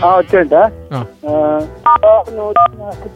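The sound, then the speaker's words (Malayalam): Phone keypad tones dial star 147: a few short, crisp dual-tone beeps sound in quick succession, interleaved with a person talking. “*147 ഒന്ന് press ചെയ്യ, press ചെയ്യ, ഫോണിൽ ഒന്ന് press ചെയ്യാം.”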